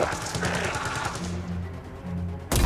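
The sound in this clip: Rapid covering gunfire sounds in a mech combat video game as a dense stream of short, repeated shots. It thins out midway, then an abrupt, loud burst hits at the very end.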